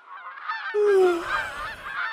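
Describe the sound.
Geese honking: several birds give overlapping nasal calls in a continuous, fairly loud chorus with no break.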